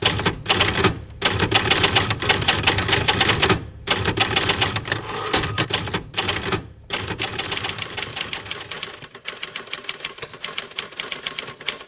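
Typewriter keys clatter rapidly and continuously, used as a news jingle, forming a loud, dense stream of sharp mechanical clacks broken only by a few brief pauses; no voices.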